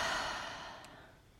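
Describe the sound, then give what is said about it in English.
A single deep breath during an exercise stretch, heard as a soft, airy rush that starts fairly strong and gradually fades away. It sounds alone, with no talk. “Let's take a deep, regular breath in and out.”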